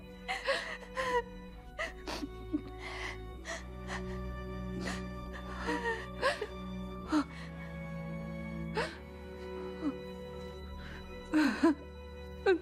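A boy crying and whimpering: short, shaky gasping sobs and soft whimpers recur at uneven intervals, faint, over a quiet steady tonal background.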